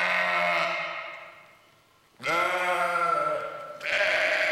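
A ram bleating: three long, loud, quavering bleats in a row. The first fades away, and the next two start abruptly, with no talk over them.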